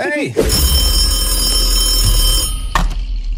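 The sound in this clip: A telephone rings for an incoming call to a live call-in show, giving a bright, steady electronic ringing tone of about two seconds. Voices are heard briefly before and after the ring.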